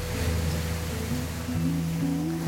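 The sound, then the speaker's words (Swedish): Boat heaving up on rough sea waves, a continuous low engine drone under rushing, splashing water that stays loud and even throughout. “Båten häver sig upp i vågorna och dunsar tungt ner i det som verkar vara ett hål i havets botten.”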